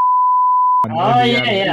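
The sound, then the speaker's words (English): A steady, high-pitched censor beep masks a spoken word and lasts under a second. A man's talking voice follows right after. “which I'm gonna beep out every time I say”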